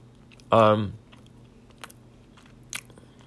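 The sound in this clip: A bite into a still-hot, dry microwaved cinnamon mug cake gives one loud, short crunch, followed by a couple of faint chewing sounds spaced apart in otherwise quiet surroundings.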